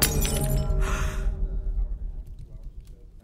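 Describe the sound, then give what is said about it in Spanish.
A glass wine goblet breaks in a woman's hand, spilling liquor onto a leather outfit: one bright shattering burst followed by a fading rumbling tail over a steady low background. “No había terminado Héctor de decirlo cuando a una de las prostitutas que lo agasajaban se le rompió una copa en la mano, derramando todo el licor en el atuendo de cuero.”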